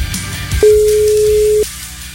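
Telephone call tone while dialing a radio listener: a single steady, mid-pitched tone that holds for about a second and then stops.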